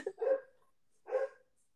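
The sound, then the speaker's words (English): A pet dog barks twice, with a short, fairly soft bark followed by a second after a brief pause. No one talks. “My dog agreed with me. He's going to bark for a second.”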